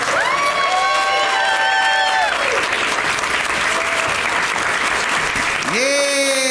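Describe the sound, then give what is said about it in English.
A live audience in San Antonio welcomes guests with loud, sustained applause. Dense, steady clapping runs throughout, mixed with cheering voices and shouts. “They're really making you applaud for a long time”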